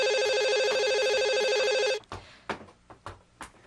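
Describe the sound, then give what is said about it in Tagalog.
An early-morning telephone call rings loudly with a steady electronic bell tone for about two seconds, then stops abruptly, followed by a few soft clicks and knocks of handling. “Ang aga naman ang tumatawag na to.”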